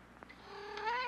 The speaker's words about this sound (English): Oh my God, it's the cat again.